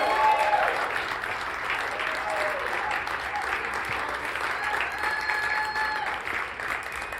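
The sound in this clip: Audience applause welcoming a speaker to the front: dense, steady clapping from many hands, holding at an even loudness for the full seven seconds.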